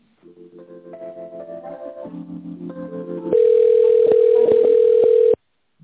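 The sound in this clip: Telephone line tones play while a call is transferred to a specialist: a stepped series of steady electronic tones changing pitch in turn, then a louder continuous single tone that holds for about two seconds and cuts off abruptly.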